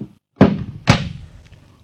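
A door bangs twice, two heavy wooden thuds about half a second apart, each loud with a short ringing decay, followed by quiet.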